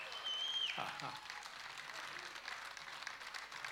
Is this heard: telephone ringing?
no